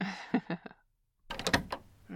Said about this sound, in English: How about I just lock this door?